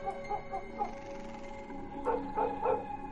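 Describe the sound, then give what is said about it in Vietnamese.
A dog barking furiously in a tense night scene: a quick run of high yapping barks, a short pause, then three louder barks in steady rhythm, all fairly faint. “Con Mích đứng ở ngoài hiên, nó như cũng nhận biết tình thế nguy hiểm mà nó sủa lên ghê lắm, như điên như cuồng vậy.”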